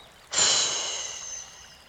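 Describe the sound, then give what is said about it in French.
A single deep breath during a guided chakra meditation begins abruptly with an airy rush. It holds steady for over a second, then eases off into quiet. “Inspirez, soufflez.”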